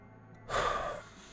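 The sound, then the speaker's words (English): A person draws one deep breath: a short, airy rush of breath that swells and fades within half a second, alone against a quiet background. “Agent Romero takes a deep breath”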